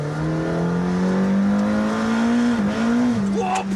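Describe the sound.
A hypercar drives in a racing video game, its engine giving a loud, steady, droning tone that holds nearly level, with brief small dips in pitch near the end.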